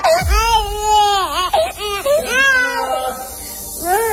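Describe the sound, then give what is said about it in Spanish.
A baby in a tantrum wails loudly in several drawn-out cries that bend up and down in pitch. Short catches of breath break up the cries. “si tienes un bebé en fase de rabietas, ojo con este truco que se ha hecho viral para que el bebé deje inmediatamente de berrear.”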